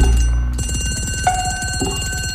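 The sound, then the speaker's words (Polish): A telephone rings with a bright, rapidly trilling bell, loud and steady, repeating without pause and with no voices over it. “telefon.”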